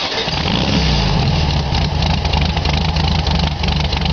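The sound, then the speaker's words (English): Engine of a 1966 Volkswagen Beetle Baja Bug running at a loud, steady idle, a dense low rumble with a throbbing beat that holds evenly throughout, with no clear start or shutoff. “I used to have a Volkswagen Beetle. It's been more than 10 years. I can't remember even the feeling of getting behind the wheel and turning the key and hearing this.”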